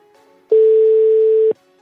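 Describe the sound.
A single steady telephone ringback tone, about one second long and loud, sounds on the line as a call to a personal phone goes unanswered. There is no talk.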